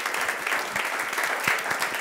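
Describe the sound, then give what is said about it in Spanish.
Audience applause for a guest at an evening business-ministry gathering: a steady patter of many hands with a few sharper individual claps standing out, lasting about two seconds. “Den un buen aplauso, por favor, a ella.”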